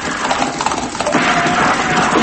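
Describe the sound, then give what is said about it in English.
Horses' hooves clip-clop as a band of riders comes into town at night: a loud, busy, continuous patter of many hoofbeats with no talk. “That night, El Bisto and his men rode into town.”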